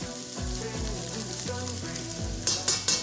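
Fatty bacon, diced onions and garlic fry in a pan with a continuous loud sizzle, and three sharp crackling bursts come close together near the end.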